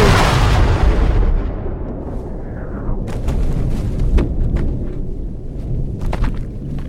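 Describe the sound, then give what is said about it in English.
Machine gun fire in a film opens with a heavy boom that slowly decays, followed by many sharp, scattered shots over a low rumbling background. “Why are there machine guns? Kablooey. Oh, he reloaded.”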